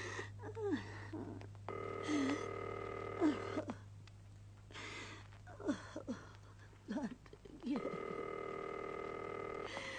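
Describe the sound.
Telephone tones as a long-distance call is placed: a steady electronic tone sounds in two stretches, with scattered clicks and brief faint noises between them over a constant low hum.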